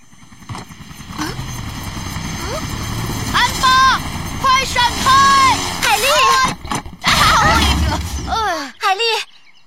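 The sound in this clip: A helicopter's propeller whirs with a fault in an animated children's story. A steady mechanical drone runs under lively voices talking over it.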